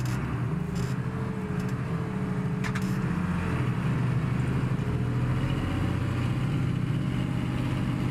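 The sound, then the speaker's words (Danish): Tractor engine pulling a slurry wagon as it digs itself in and gets stuck, a steady low engine rumble holding an even loudness throughout, with no voices. “Gyllevognen rykker sig en meter mere, og traktoren graver sig ned. Jeg bakker tilbage.”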